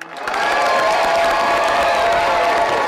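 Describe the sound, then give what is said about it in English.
Friends and family cheering and applauding as GED program graduates walk the stage at Wichita State's Hughes Metroplex, a loud, dense, continuous roar of clapping and crowd noise that swells in quickly and holds steady. “Friends and family cheered as graduates walked the stage at Wichita State's Hughes Metroplex.”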